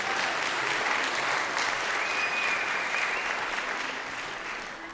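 An audience applauds an adult choir and junior singers at a concert, a dense, even clatter of many hands that holds steady for about five seconds.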